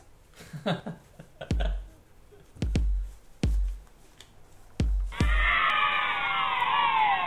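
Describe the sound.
A cheering 'yay' effect from the video game Halo 1 sounds as a bright burst of many high voices lasting about two seconds at the end, after a few heavy, low thumps.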